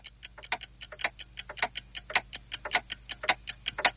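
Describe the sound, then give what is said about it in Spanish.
Dozens of clocks of different types, synchronized on the walls and shelves of a room, tick together in a steady, even rhythm of many crisp, clear ticks. “De día, en una habitación, docenas de relojes están colocados sobre paredes y estantes.”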